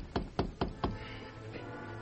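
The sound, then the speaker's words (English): Knocking on a hotel room door: four sharp, evenly spaced raps in quick succession, fairly faint, followed by quiet. “He rapped on the door.”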